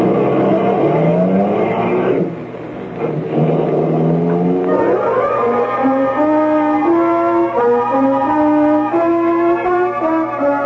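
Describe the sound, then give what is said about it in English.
A car engine drives into a park, rumbling, then revving with rising pitch sweeps that climb in steps as the car accelerates and shifts up through its gears. “Keep your wallet in your pocket. Now, drive into the park. All I want is your company. Into the park, pal.”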